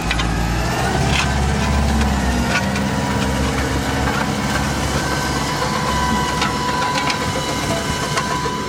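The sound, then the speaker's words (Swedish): Tracked robot tractor driving on a farm estate, giving a steady low engine drone with a mechanical hum and scattered faint clicks and clanks. Loudness stays even throughout, with no voices. “Kan du inte låta den köra förbi oss här så att vi får en liten ljudkuliss? Ja. Nu kommer den här robottraktorn.”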